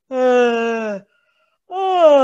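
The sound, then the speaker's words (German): Relaxed vocal toning, a low open-throated moan likened to a cow's moo: two long, steady humming tones rich in overtones, separated by a short silence. “das sind schon erste Toning-Klänge. Das ist die erste Phase vom Toning, wo es ins Entspannen geht, wo der Körper durch Klang in die Erleichterung findet.”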